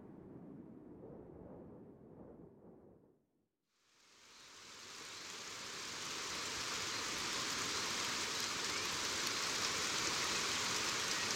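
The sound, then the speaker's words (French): Torrential rain pours under a heavy, dark sky in India. A low, muffled rumble fades to near silence, then a dense, broad hiss swells in and settles into a steady downpour, fairly quiet overall. “De la pluie à torrents sous un ciel lourd et noir, ce fut l'Inde.”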